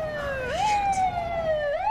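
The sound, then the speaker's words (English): A police car siren wails as the car pulls up behind an SUV on a city street. The loud, steady electronic tone jumps up in pitch partway through, slowly sinks, then climbs again at the end. “A police car pulls up behind her.”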